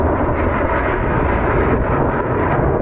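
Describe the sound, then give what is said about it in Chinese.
Roaring jet engines of a three-aircraft military formation taking off at an air show, high-thrust engines on afterburner, making a loud, unbroken, rumbling roar throughout. “没想到三台大推力发动机。开加力时候的那个声音，比刚才歼20低空通场的时候还要震撼人心。”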